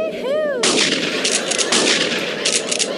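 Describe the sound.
Gunshots crack out in a rapid, dense burst of loud blasts after a brief wavering whistle tone at the start, with the firing continuing unevenly to the end.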